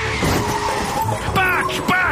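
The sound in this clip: Car tires squeal in a sharp, loud skid, the harsh screech rising and wavering over about two seconds.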